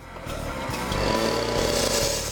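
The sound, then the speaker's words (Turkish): Harsh, buzzing drone of a 66 cc petrol cut-off saw built for cutting concrete, the engine running loud and steady with a dense, gritty roar. “İşte size canavar gibi bir testere. Beton doğramak için yapılmış.”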